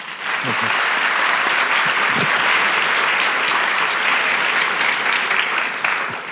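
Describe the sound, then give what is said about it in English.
An audience at an architecture talk applauds to welcome the speaker, a city architecture critic. Loud, dense clapping holds steady from start to end. “Please give a warm welcome to Mr. John King.”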